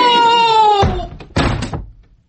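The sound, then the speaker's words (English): A door being opened while a group of schoolboys hauls someone out: two loud, dull thuds after a steady tonal sound at the start. “Open the door”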